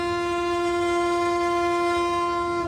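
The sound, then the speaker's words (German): A historic railcar travels at up to 40 km/h toward the next station, giving a steady, sustained tonal drone rich in overtones that stays loud and even throughout, with no voices. “Mit maximal 40 km/h düst der Triebwagen zur nächsten Station, Wiehe Kurpark.”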